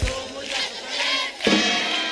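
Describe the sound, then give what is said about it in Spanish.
A crowd applauds and cheers for a man at a window, a dense, continuous roar of clapping and shouting voices that swells slightly partway through. “¡Ese aplauso al señor de la ventana, que se oiga!”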